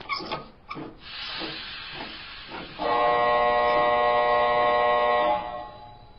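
Pressurized CO2 gas is released in a loud, steady hiss with a tonal edge that lasts about two and a half seconds, after a few quieter scraping sounds.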